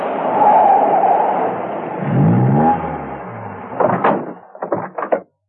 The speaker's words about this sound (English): He drove up to the house and parked his car conveniently near the trees.